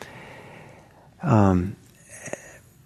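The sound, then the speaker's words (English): A deep breath is taken during a mindfulness relaxation exercise: one long, voiced, sighing exhale in the middle, followed by softer breathing and a short, faint sniff. “Okay, let's do a three breath journey. Let's relax.”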